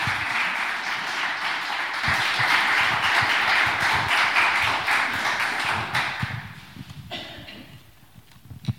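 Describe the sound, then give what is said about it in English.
Applause from an audience welcoming a speaker to a charity talk: a dense, steady clatter of clapping that holds for about six seconds, then thins and fades into a few scattered claps. “So can you put your hands together and welcome Steph as she comes to speak to us today.”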